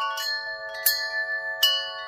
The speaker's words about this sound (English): a singing bird, a wind chime,